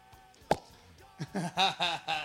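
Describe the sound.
A bottle of cheap red wine being opened: one short, sharp pop, followed by a person talking.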